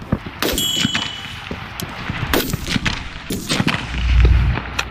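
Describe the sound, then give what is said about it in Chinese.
Pistol gunfire during precision rapid-fire shooting practice: a few sharp, loud cracks spaced irregularly about a second apart, each standing out above a steady background hiss. “重新瞄准目标，再次激发。时间紧张，精度速射对于射手控枪能力有极高的考验”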